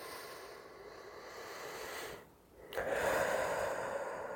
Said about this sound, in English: So just take a deep breath in.